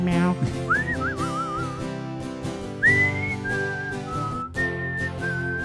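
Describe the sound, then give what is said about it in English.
A person whistles a song melody with sliding, wavering notes and a few held pitches, over steady sustained tones underneath. “Can you whistle it now?”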